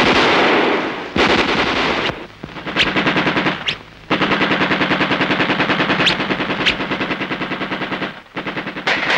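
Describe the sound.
Gunfire from a soldier shooting at German troops: loud, rapid machine-gun-style bursts that run for several seconds at a time, with only brief pauses between the long volleys and no voices.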